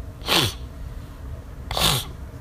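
Two short, sharp sniffles about a second and a half apart. Each is a breathy nasal hiss of air, fairly faint, with quiet in between.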